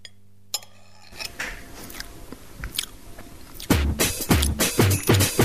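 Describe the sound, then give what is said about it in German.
Crunchy biting and chewing as someone eats a plated char fish dish. The first seconds are quiet, then firm, repeated crunchy bites grow louder in the second half, with no talk. “jetzt genieße ich erstmal meinen Saibling. Der duftet ja schon die ganze Zeit hier vor mir, ist schön angerichtet und jetzt wird es wirklich Zeit, dass ich das auch mal probiere.”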